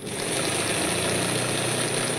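Giant industrial sewing machines in a sailmaking workshop give a steady, continuous mechanical drone with a low vibrating hum, running evenly throughout with no voices.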